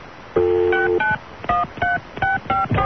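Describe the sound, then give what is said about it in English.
Touch-tone telephone keypad dialing a direct-dial number: a steady held tone, then a quick, uneven run of short, clear beeps of varying pitch, loud and with no talking. “Oh, is this a different number? Yeah, try that as a direct dial.”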